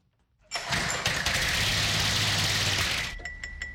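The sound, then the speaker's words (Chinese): A small engine starts after fuel is added, catching abruptly from near silence into a loud, steady running roar that eases off toward the end. “Okay, so put some fuel in there. 往里面放一点油，看看能不能启动。”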